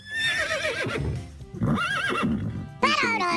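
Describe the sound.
A horse neighs in a few shrill, wavering whinnies with a quivering, up-and-down pitch. The calls come in separate bursts, and the last one is louder and sharper.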